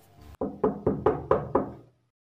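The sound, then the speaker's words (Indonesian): Knocking on a bedroom door: six sharp raps in a quick, even sequence, clear and alone after a faint sound at the start. “Tiba-tiba kayak ada yang ngetok pintu kamar gue.”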